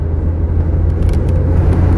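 A car's deep, steady engine rumble runs for two seconds, low and continuous with slight wavering in loudness.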